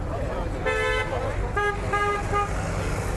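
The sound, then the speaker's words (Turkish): Car horns honk repeatedly in heavy city traffic, with a few toots of differing lengths, one longer and the rest short, sounding over a constant roar of road noise. “Mega kentin bitmeyen gürültüsüne uyarı için peş peşe çalınan korna sesleri de”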